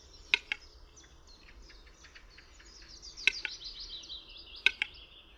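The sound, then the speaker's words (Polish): Soft, muffled clicks from a bird's song during its slow clapping phase come in a few spaced pairs over a steady, faint high-pitched chirring background. “Klapanie to powolna seria głuchych, miękkich kliknięć. Zaniepokojony ptak może przedłużać tę część pieśni.”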